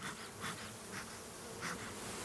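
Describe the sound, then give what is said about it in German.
Thousands of honeybees buzz inside an opened hive brood box after the honey super is lifted off, making a soft, continuous, dense hum with slight swells as individual bees pass. “Jetzt nehme ich den Honigraum runter und wir schauen in den Brutraum. Hier sehen wir tausende von Bienen.”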